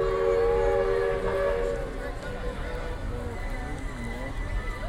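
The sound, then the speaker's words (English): A theme park railroad train at Walt Disney World's Magic Kingdom sounds a steady tonal whistle at the start, then a continuous low rumbling runs on beneath indistinct voices. “comes the Walt Disney World Railroad.”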